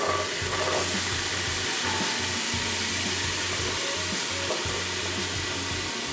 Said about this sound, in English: Let's throw those beans in and mix the whole pan.